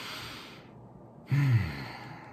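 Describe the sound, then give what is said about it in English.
A deep breath, one short soft exhale like a sigh, quiet and on its own with no talk. “I want to invite you to take a deep breath”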